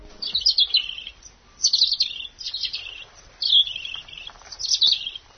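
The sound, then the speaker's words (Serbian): A bird singing in April: about five bursts of high, bright chirping phrases repeat with short pauses between, alone and clear over a quiet background. “Mališa prilično ležerno pozira i ne prestaje da peva.”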